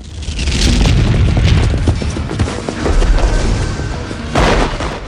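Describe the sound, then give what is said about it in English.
Explosions rock a building compound in a few heavy, booming blasts. Each one rolls into a long, loud rumble with crackling debris, and the bursts follow one another with only brief dips between them. “Explosions rock the building compound.”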